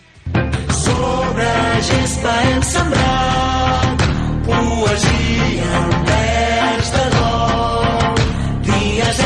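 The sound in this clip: A sung football anthem, a candidate chant for FC Barcelona with Catalan lyrics, carried by voices over full, dense instrumental backing that stays loud and steady throughout.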